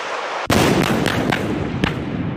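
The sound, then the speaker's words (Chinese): Howitzer artillery fires on a target during a live-fire test in the windy Gobi desert: a sudden heavy blast opens into a sustained, loud roaring rumble with a few sharper cracks on top. “根据回传信息，榴炮分队自主解算装定射击诸元，向目标发起火力打击。”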